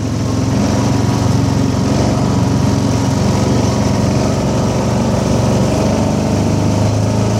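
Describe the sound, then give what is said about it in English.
A four-wheel-drive vehicle's engine drones as it climbs back up a hill in four-wheel drive, a loud, steady mid-pitched roar that holds constant throughout with no voices. “Put it in four wheel. This is a heavy one too. There it went in. Make sure the gears line up. We're going back up the hill here.”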